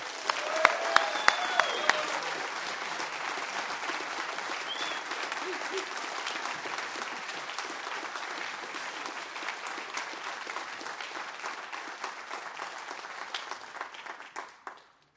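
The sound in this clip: Sustained audience applause welcoming a speaker to the stage at a recovery gathering: dense, even clapping from a large crowd that carries on for about fifteen seconds before trailing off at the end.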